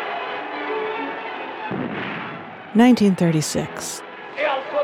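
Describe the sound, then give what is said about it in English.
Battle gunfire and artillery as fascist forces attack Madrid in 1936. Crackly, rumbling bursts of firing, with a voice speaking over the noise in the second half. “Battle for Madrid, the fascists attacking.”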